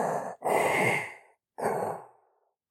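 Respirator-style breathing from a character emote in the Fortnite video game: a short hiss, then a long, loud, raspy breath, a pause, and a second breath that tapers off, with no talk.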